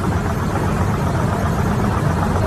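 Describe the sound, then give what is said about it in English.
Strong vibration inside an airplane cabin produces a rough, continuous drone like an unbalanced washing machine on a spin cycle. The loud low rumble stays steady and unbroken throughout, with no voices. “listen to that vibrating. It sounds like a washing machine that's out of balance during a spin cycle. That is inside the plane.”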